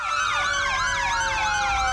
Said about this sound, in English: The sirens of volunteer fire trucks signal the beginning of the West Virginia Coal Festival parade.